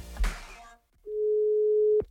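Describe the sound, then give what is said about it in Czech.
A telephone line tone sounds while a call is being dialed: one steady, mid-pitched tone holds for about a second and ends with a sharp click. A brief voice is heard just before it. “Vytáčím mámu.”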